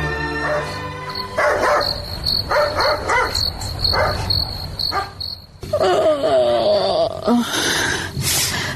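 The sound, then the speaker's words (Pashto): A dog barks in the middle of the night over constant cricket chirping, letting out many sharp, loud barks in irregular bursts with short pauses between them. “وګورم چې دا سپی ولې غاپي”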